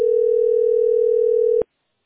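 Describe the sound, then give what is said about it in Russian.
A telephone dial tone hums as one steady, unbroken mid-pitched tone for about a second and a half, then cuts off with a faint click and leaves silence. “Ваша позиция. 21. Какой-то гудок странный.”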